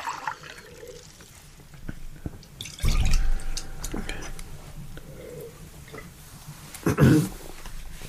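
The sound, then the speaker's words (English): Water splashes and drips as a glass is rinsed between beers during a tasting. Two louder pours or sloshes stand out against quiet trickling, with some talk. “All right, one more beer. Let's get a good rinse so we're not souring up our rye porter.”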